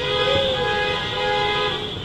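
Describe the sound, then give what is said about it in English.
A caravan of cars honks through a city street during a protest against a historic designation on 18th Street. A loud, continuous horn blare holds a steady pitch across the whole clip, with traffic noise beneath. “a caravan of cars took over 18th Street for a couple of blocks, honking their horns to express opposition to the designation.”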